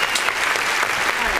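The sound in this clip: An applause sound effect plays as a burst of dense, steady clapping, loud and even throughout, with voices talking alongside it.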